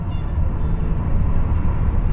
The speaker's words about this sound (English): As the train shudders and thumps, it lulls you to sleep.